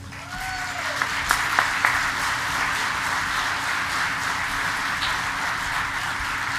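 An audience at an EAA gathering applauds to welcome the organization's president and chairman, a dense, sustained wash of clapping that stays fairly even in loudness from start to finish.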